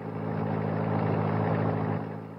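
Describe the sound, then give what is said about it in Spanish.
A car drives along a street, its engine producing a steady, even hum with a low tonal drone that swells in at the start and eases off slightly at the end. “Ella creyó que podía escapar sola, pero Leopoldo estaba oculto tras el asiento trasero, y cuando el auto ya iba en plena calle, saltó a su lado.”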